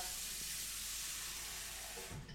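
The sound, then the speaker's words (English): Warm water runs from a tap into a bowl: a broad, even hiss that holds steady, then cuts off abruptly near the end. “So, then I'm going to get you a bowl of warm water.”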